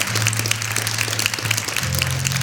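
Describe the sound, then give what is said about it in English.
An audience clapping hands to welcome newcomers during a church service, a scattered patter of claps over a sustained low tone, fairly even in level throughout. “Come on, everybody. Clap your hands and welcome these folks. Welcome them.”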